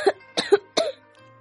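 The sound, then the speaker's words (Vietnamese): A man bent over gives a short run of dry, harsh coughs in quick bursts, then goes quiet. “Lời còn chưa nói, hắn đã khom lưng ho khan.”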